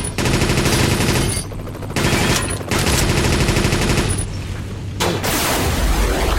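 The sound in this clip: Machine gun fire from a video game with bases and attacking ships comes in long, dense, rattling bursts. It is loud and harsh with a heavy booming low end, and a few brief gaps break it up.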